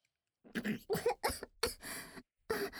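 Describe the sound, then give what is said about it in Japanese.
Coughing fit after saliva went down the windpipe: a few harsh, raspy coughs in uneven bursts, with a short pause before a final cough. “ごめんなさい。よだれが気管に入ってしまって。”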